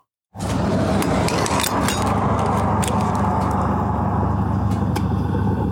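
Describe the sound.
A car is refuelled at the Fisherman's Bend gas station on a sunny day: a steady rushing hiss of fuel flow starts abruptly and continues evenly, with a few faint clicks and knocks.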